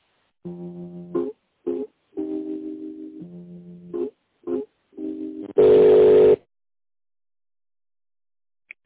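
Telephone line tones while a call is connected to another extension: a series of short and longer buzzy harmonic tone bursts separated by gaps, then a loud harsh noise burst, silence, and a faint final click.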